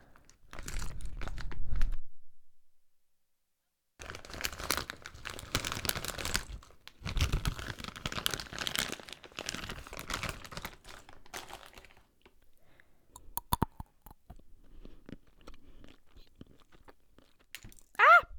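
Crunchy snacks being eaten ASMR-style, with close crisp crunching and crinkling in a few dense bursts, a short pause, then quieter scattered crunches and a final crackle.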